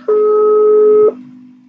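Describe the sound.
A single ringback tone from an outgoing phone call waiting to be answered: one steady mid-pitched beep lasting about a second, then quiet with only a faint low hum.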